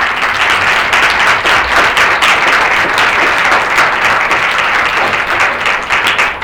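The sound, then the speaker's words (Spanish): An audience applauds at the close of a day of talks against femicide held at a university campus. The clapping is loud and steady from start to finish, with no voices standing out. “Así que un aplauso pues, por todos los que están con ti.”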